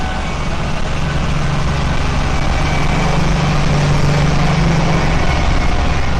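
Race car engine in a racing video game creeping out of the pit lane in a period car without a pit speed limiter, a steady low drone that holds an even loudness throughout with no gear changes or revving.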